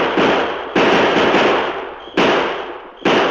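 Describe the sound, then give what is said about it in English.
Gunshots in a western radio drama: several loud cracking blasts, each trailing off in a long, noisy, fading tail, unevenly spaced one after another. “Open fire!”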